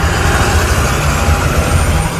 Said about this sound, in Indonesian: Teu karasa, bus terus ngaberung.